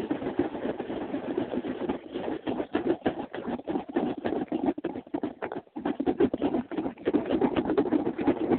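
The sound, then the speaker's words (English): Plastic My Little Pony G4 toy figures rattle inside a shaken box, a continuous dense clatter of many quick knocks that keeps up steadily throughout. “Now I'm going to shake the box up again.”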